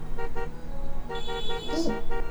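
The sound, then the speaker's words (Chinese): Car horns honk in a traffic jam at a backed-up intersection: a few short, repeated toots sound in a loose rhythm over a steady low traffic rumble. “这喇叭声还是有点太吵了。”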